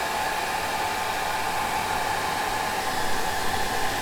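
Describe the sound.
Steady roaring whoosh of a hair dryer drying hair at a hairdresser, loud and unbroken from start to finish with an even airy hiss and no voices.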